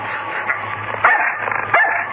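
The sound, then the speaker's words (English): A dog barks and yips as it is set onto a man, with two sharp, louder barks standing out among smaller yelps over a low, steady background hum. “Put the dog onto him.”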